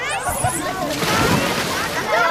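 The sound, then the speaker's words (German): Water splashing and sloshing steadily in a busy outdoor swimming pool with a non-swimmers' pool, swim rings, diving children, an inflatable flamingo and a water slide, with voices mixed into the continuous wash. “aber auch im Nichtschwimmerbecken ist total viel los. Da haben wir Schwimmringe, Kinder tauchen.”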